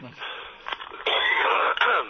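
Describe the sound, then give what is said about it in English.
A person coughs during a conversation: a few harsh, breathy, rasping bursts in quick succession, fairly loud and without clear speech. “excuse me while I cough, I'm sorry.”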